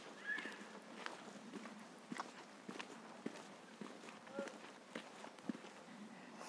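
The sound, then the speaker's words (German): Footsteps of people walking on a path from the Milchhüsli toward the Panoramaweg: many fairly even, soft steps in a steady walking rhythm, moderately faint. “Wir laufen jetzt äh, hier vom Milchhüsli weg zum Panoramaweg”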